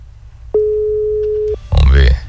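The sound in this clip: Telephone ring tone while placing a call: a single steady, mid-pitched tone lasting about a second, then a short pause and a brief, louder burst of other sound.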